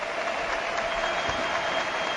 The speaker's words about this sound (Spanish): Qué ovación para Carcela, que se marcha. Ha hecho un partidazo.